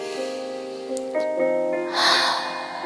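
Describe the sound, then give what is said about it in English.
A deep breath is drawn and let out as a soft, airy rush late in the moment, over steady background music, with no talking. “Just take a deep breath with me.”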